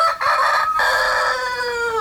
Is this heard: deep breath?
no